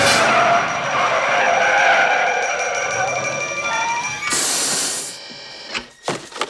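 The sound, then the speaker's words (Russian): Tires screech as a car brakes hard and skids with clutch and brake pressed. A long, loud squeal holds for about four seconds, then gives way to a rush of noise and a few short, sharp bursts. “Выжимает сцепление и тормоз.”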